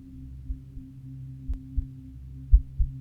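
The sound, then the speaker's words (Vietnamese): A heartbeat thumping: three low, soft double beats in a steady rhythm, each a pair of dull thuds, over a faint continuous hum. “hòa theo tiếng tim đập thình thịch, thình thịch.”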